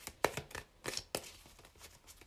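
Tarot cards being shuffled and drawn: several sharp papery snaps and flicks with softer rustling between them, in an uneven rhythm. No voices.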